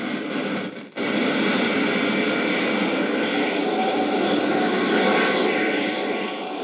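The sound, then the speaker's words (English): The braking rockets of a spacecraft roar as it sets down tail first on the moon's dusty surface. The loud, steady engine rush dips briefly near the start, then resumes and holds constant throughout. “Skillfully, Flash manipulates his craft's braking rockets. The soft pumice dust of the moon's surface is going to make the landing hazardous. Slowly, the ship settles down, tail first.”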